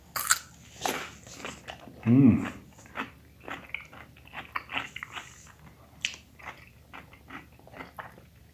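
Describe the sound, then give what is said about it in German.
A pickled gherkin is bitten and chewed: one loud wet crunch, followed by many small, soft crackling chewing clicks in an irregular rhythm. “Aber ein Gürkchen, ich esse jetzt ein Gürkchen, das ist gut für die Nerven.”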